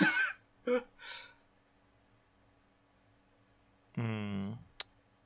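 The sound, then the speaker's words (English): A single sharp computer mouse click lands near the end, made while clicking to open a game. Short voice-like bursts come before it, with quiet gaps between them. “Did you click on the Rampage game? All right, let me click on the Rampage game.”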